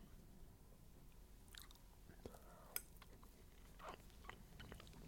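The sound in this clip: Biting and chewing a soft, fluffy Gugelhupf bundt cake: a few faint, crisp bites and quiet mouth sounds over low background noise, with one sharper click partway through.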